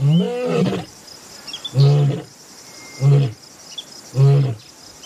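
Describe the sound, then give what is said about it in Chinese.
A lion near a cub in Katavi National Park gives a deep series of four grunting roars, spaced about a second apart, over faint insect chirping. “而他不知道，另一头狮子也在慢慢靠近幼崽。”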